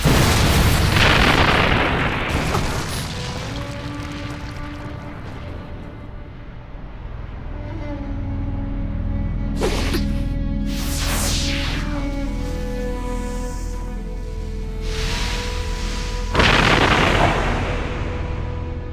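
Explosions from a fired shot: several heavy booming blasts with sharp bursts, an opening roar and later separate detonations standing out against a lingering rumble.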